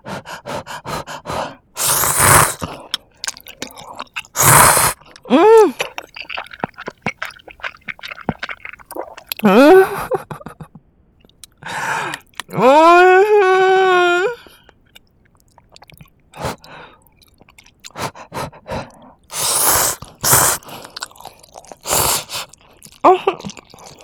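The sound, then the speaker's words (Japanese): Instant ramen noodles are eaten with loud, wet slurping and chewing bursts spread unevenly through the stretch, broken by quiet gaps and a few short voiced hums. “こんなインスタントラーメンが一番美味しいよ。いただきましたよ。”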